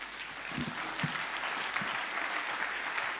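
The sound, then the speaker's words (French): An audience applauds during a church service in acclamation of the Lord, with a dense, even wash of clapping that stays faint and steady, plus a few soft low thumps. “Vous avez bien fait de continuer à acclamer le Seigneur.”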